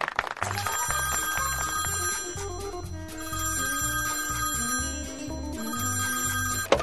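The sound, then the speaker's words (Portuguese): A musical jingle on a Brazilian radio show: bright, bell-like ringing tones over a steady pulsing bass, played at an even level for about seven seconds with no talk. “Técnica, roda a vinhetinha”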